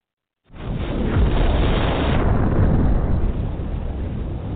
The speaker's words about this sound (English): Man, that bomb took too long, boy.